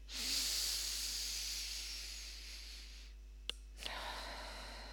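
A deep breath in through the nose and out through the mouth, heard alone as a long, soft, airy hiss, with two faint clicks near the end.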